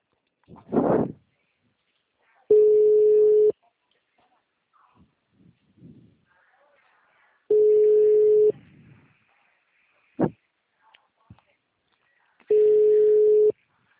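Ringback tone of an outgoing phone call waiting to be answered: three steady, mid-pitched ring tones, each about a second long and evenly spaced, with quiet gaps and a few faint clicks and rustles between.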